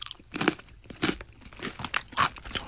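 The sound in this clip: Crunching bites into a freeze-dried, butter-scented sweet snack: several crisp, crackly crunches in uneven bursts, each sharp and brittle, with no talk over them.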